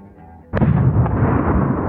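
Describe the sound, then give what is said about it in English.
A bomb explosion sound effect turned up loud: a sudden booming blast breaks a brief quiet, then a dense, rumbling roar holds strong to the end. “No, it was a bomb. Here you go. Was that a bomb? Okay, sound effect is marginal. Let me turn it up.”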